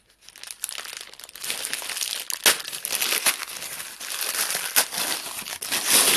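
Crinkly rustling and sharp crackles come as a fabric sleeve is pulled off a 2021-vintage wine bottle, an uneven run of many scrapes and snaps that builds after a quiet start.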